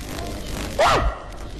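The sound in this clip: A voice imitates a dog's bark with one short, voiced 'woof' that arcs in pitch. It stands alone over a faint background hiss.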